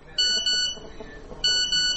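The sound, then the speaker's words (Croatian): Phone text message notification tone for an incoming message: a few bright electronic beeping bursts with a harmonic ring, split by a short quiet gap, standing clearly over a faint background. “Budi me poruka.”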